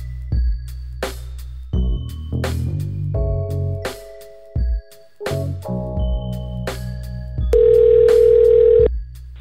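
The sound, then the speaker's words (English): An outgoing telephone call ringing out: a series of electronic tones, some short beeps and some longer steady tones, ending in one long, loud, sustained tone. “let's call up the one and only Pam Grier.”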